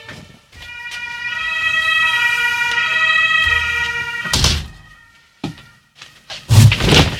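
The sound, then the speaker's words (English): Fire truck sirens from a fire station next door wail loudly in a steady, harmonic-rich tone for several seconds. The siren cuts off and a few heavy thumps and knocks follow. “It is, in fact, quite unfortunate when you have a radio studio located directly next to the fire station. Because if there is a five-alarm fire, then all of the fire trucks roll out one after the other and blow their sirens.”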